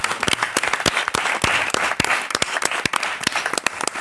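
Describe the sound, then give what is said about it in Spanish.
Audience applause thanking a team at a ten-year anniversary: dense, steady clapping from many hands that keeps up throughout. “que yo creo que se merecen un aplauso por este trabajo que hacen.”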